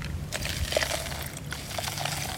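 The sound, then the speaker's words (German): Water is poured into a homemade bottle filter packed with sand and charcoal. The trickle is faint and sloshing, with a few soft splashes and small bubbling blips and no talk. “Das Wasser ist inzwischen versickert. Also nochmal nachfüllen.”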